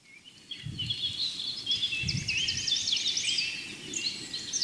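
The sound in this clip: Birdsong from a blackbird, a robin and a blackcap sounds as faint, high, rapid warbling phrases and trills that overlap one another, with a few soft low thuds beneath.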